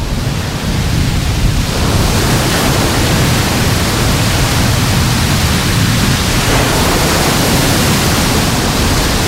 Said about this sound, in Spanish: Escuchar el sonido del mar, aunque los días de poniente ya ese ruido está permanentemente de fondo. Así es como hoy suena la playa de Salobreña.